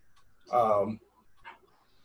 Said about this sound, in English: sorry about the dog barking, if you can hear that.